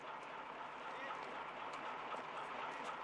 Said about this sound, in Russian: заставе подъезжает тот же тепловоз с прицепной платформой. Сбавляет ход. Заехав в зону ограждения, локомотив останавливается.